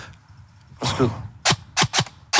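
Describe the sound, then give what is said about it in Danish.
Toy pistol firing hard plastic balls, giving several sharp, dry snaps in quick succession near the end, each short and crisp. A softer, longer burst of noise comes before them. “Og så skyder den med sådan nogle rigtig hårde hardballs.”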